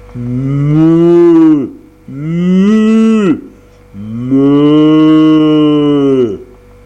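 A cow lowing loudly after stepping out of water: three long, drawn-out moos with a deep, rich tone, each one trailing off with a downward slide and followed by short pauses.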